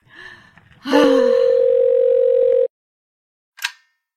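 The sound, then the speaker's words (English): A telephone ringing tone on a call to a Cherry Hill exchange number: a single steady, pitched tone held for about two seconds after a faint murmur, then silence and one short hissy burst. “Ringing Cherry Hill 23132.”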